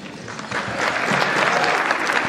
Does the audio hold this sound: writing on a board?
no